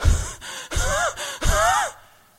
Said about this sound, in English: You're panting.